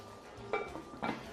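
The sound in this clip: A lid is set onto a cooking pot, giving two faint metallic clinks about half a second apart against a quiet background.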